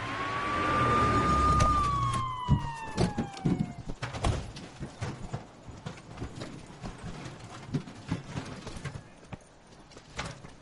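Ambulance siren wailing in a single sweep, holding a high tone before sliding downward, then giving way to several seconds of clattering knocks and bumps, with no talking.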